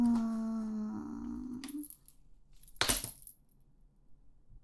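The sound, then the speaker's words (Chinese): A metal dog chain leash is handled, giving a couple of brief metallic jingles and rattles that are fairly faint and quick. “喏，戴上。对啊，就是狗链啊。”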